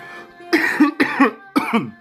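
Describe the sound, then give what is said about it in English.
A person coughs three times in quick succession. Each harsh, throaty burst has a rasping tail, and no talk is heard. “I apologize for coughing in your ears. I'm sure that didn't sound good on your speakers.”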